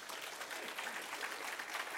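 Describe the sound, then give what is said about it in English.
An audience applauds during a worship service, a faint, steady patter of hand claps that holds evenly for two seconds. “give God a hand clap of praise in this place”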